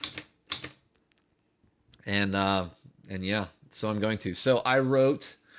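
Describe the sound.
Typewriter keys clack in a few sharp strikes at the start, as someone types on a typewriter, followed by a person talking at length.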